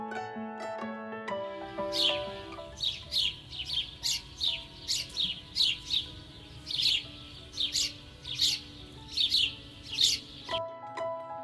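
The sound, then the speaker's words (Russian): A sparrow chirps in many short, bright, high-pitched bursts, repeated at a quick, irregular pace with steady loudness throughout. “Воробей говорит чик-чирик. Чик-чирик, чик-чирик.”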